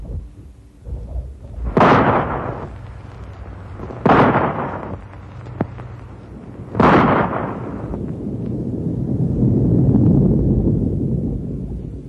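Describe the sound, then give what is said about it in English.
Three loud rifle shots, each a sharp crack trailing into a booming echo, spaced a couple of seconds apart, followed by a long low rumble that swells and fades; no voices. “Rifle shot? Right. Now watch.”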